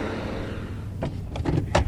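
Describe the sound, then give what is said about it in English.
A car drives up a road on a pulp mill company's property toward its landfill site. A steady low rumble carries throughout, with a few brief, louder bursts of noise near the end. “A quick drive up the road takes us to the landfill site on the company's property.”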